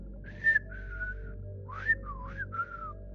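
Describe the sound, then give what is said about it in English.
Whistling in a few short melodic phrases of clear, sliding notes that rise and fall, heard alone over a low steady background hum. “And we get a whistling response.”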